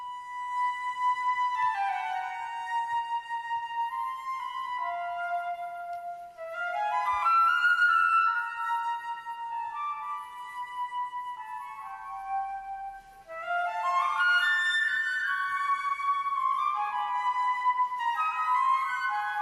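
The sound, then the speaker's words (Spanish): Orchestral music by a contemporary Spanish woman composer from Navarre, born in 1951. Sustained, high melodic lines with sliding and bending pitches play at a soft to moderate level, swelling in two louder passages, with no voices. “esto que estamos escuchando es la obra Europa, que es de la compositora navarro Teresa Catalán”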